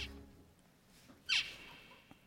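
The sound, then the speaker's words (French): A zebra finch distance call: one loud, short, high-pitched note with a quickly falling tone that stands out above faint background hiss, with a few much softer chirps around it. “Voilà, ça c'est des cris de distance de diamants mandarins.”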